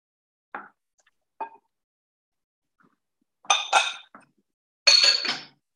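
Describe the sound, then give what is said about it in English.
Light plops and clinks of a teaspoon as baking powder and cinnamon go into vegan oatmeal raisin cookie batter with flour and rolled oats. Two short taps come first, then a few louder, longer clinking scrapes, with no talk. “And then we are going to add in our baking powder and cinnamon. So the baking powder is, like I said, this is double. So this is going to be 4 teaspoons.”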